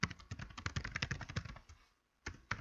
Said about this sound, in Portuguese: Deixa eu dar um enter aqui para a gente começar o conteúdo.